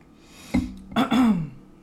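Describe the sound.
Throat clearing from someone with an irritated throat: a short rough burst, then a longer voiced, gravelly rasp, fairly loud and alone without talk.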